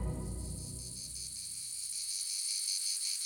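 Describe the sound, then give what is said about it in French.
Cicadas chirp in the summer heat on a scorching July day in La Ciotat, in the south of France. Their shrill, steady, high-pitched drone pulses gently, stays fairly faint throughout and has no voices over it. “Le soleil tape très fort, les cigales chantent.”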